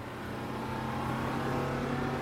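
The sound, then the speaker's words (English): A bus speeding off down a street: a loud, steady engine drone with a low humming tone under a broad roar, holding even throughout. “he shifts his gaze to the bus and darts to his feet. It speeds off down the street.”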